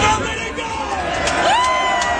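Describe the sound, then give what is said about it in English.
Crowd cheering at a political rally: a dense, loud roar of many voices with a few shrill whoops rising above it, steady for the whole length. “That's a pretty good crowd.”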